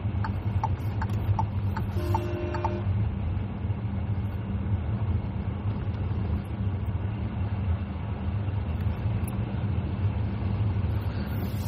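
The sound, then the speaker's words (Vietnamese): Steady engine and road noise from a car being driven, a constant low drone throughout, with a few short high beeps near the start. “Mọi người ơi, mọi người thông cảm giúp mình là tại vì bây giờ mình đang lái xe đó.”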